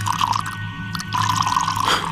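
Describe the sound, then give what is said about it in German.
Drink poured into a glass: a bright, trickling gurgle runs in two stretches, separated by a brief, quieter pause. “Gieß mir auch ein. Einen Schluck vor dem Gang in die Unterwelt.”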